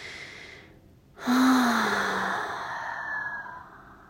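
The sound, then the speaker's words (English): A deep breath taken during a guided self-care exercise about sitting up straight: a soft lead-in, then a sudden, fairly loud sighing exhale with a faint voiced tone that fades slowly over the following seconds. “Let's take like 3 deep breaths.”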